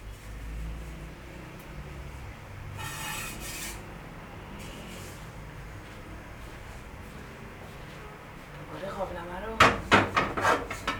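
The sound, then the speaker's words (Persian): A hot pot lifted with a holder and emptied into a basket strainer. Steady kitchen background noise is followed near the end by a burst of rapid metallic clanks and clatter. “ببخشید اگه این صدا خیلی زیاده. قابلمه رو با دستگیره میگیریم میبریم توی سبد خالی میکنیم.”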